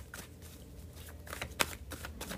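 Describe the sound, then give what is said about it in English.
Tarot cards rustle softly as a card is pulled from the deck: faint, papery shuffling with a few light flicks and one slightly sharper snap near the middle. “I'm gonna go ahead and pull a card to get the energy for the week, y'all.”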